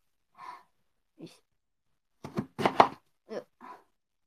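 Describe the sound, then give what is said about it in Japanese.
Knife chopping daikon radish on the same table as the phone, so the blows carry straight through the tabletop: faint, dull thuds, a couple of spaced chops and then a quicker cluster of several more. “なんかめちゃめちゃ、スマホを置いてるテーブルの上で大根切ってるから、”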